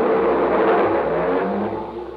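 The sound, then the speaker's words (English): A car driving off as a comedy radio sound effect, used in a gag about driving a piano out of the studio; loud, steady engine rush and whir that eases slightly toward the end. “How do you like that? He drove the piano right out of the studio.”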